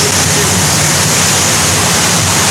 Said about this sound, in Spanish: Es muy agradable porque vamos en el barco y pues el sonido que arroja el mar,